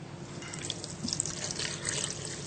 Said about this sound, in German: Jetzt werde ich den Saft bzw. das Wasser von der Kokosnuss dazugeben,